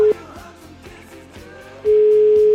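A telephone dial tone, a steady single-pitched hum, sounds briefly at the start, then returns loud and unbroken for the final stretch after a busier passage of other sound.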